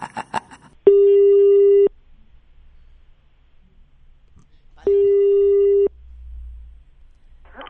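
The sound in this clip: Two long, steady telephone ringback tones sound as a call is placed to a municipal office. Each tone lasts about a second, separated by quiet with a faint low rumble.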